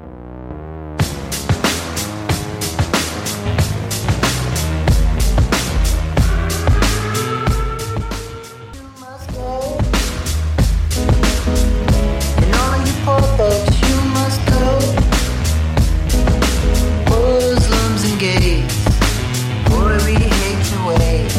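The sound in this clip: A live song performance at the Grammy Awards, loud and continuous, with a steady pounding beat and layered tones that dip briefly near the middle before the full groove returns.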